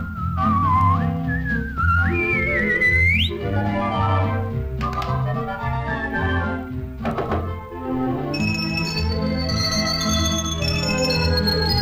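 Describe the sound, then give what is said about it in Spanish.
Bright human whistling in a Spanish-language children's singalong song, the whistled line climbing in steps over the first few seconds before full band accompaniment carries on with high chiming notes. “dame un silbidito, dame un silbidito”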